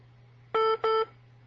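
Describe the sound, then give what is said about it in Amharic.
Another telephone's keypad tones break into a call: two short, clear electronic beeps in quick succession over a steady low hum. “ቀጥል ሌላ ስልክ እየረበሸ ነው”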